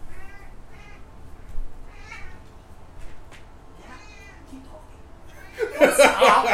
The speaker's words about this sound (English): Reggie, that's his cat.